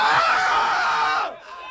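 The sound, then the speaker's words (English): A loud, drawn-out shrill scream at a baseball player's press gathering holds strained and steady for over a second, then breaks off into a weaker, falling tail. “Get the extra scream at the end.”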